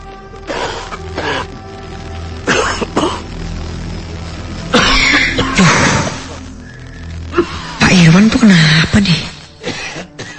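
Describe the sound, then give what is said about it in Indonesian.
A person coughs over and over in a few harsh, rough bursts. Some bursts carry strained, voiced tones, and the loudest ones come in the middle and near the end. “malah jadi batuk-batuk. Berisik deh.”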